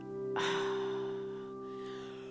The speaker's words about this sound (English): here we go with the yawning.